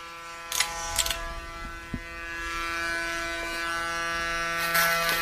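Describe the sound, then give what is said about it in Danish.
Steady electric buzz from a small machine running after being oiled: a continuous humming drone that swells from about two seconds in, preceded by a few faint clicks, with no talking. “Der skal smøres på, på den her maskine, og så er du klar. Så, nu kører”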